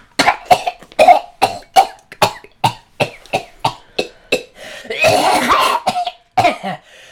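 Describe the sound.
A person imitates a cat coughing up a hairball. A long run of sharp, evenly spaced hacking coughs leads into a drawn-out rasping gag, then a couple of final hacks.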